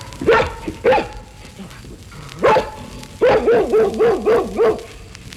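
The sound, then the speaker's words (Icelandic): A dog barks in sharp, loud yelps: a few separate barks spaced apart, then a quick run of rhythmic barks in close succession near the end. “Fugl dagsins var hundur.”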